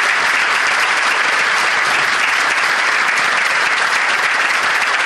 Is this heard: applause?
yes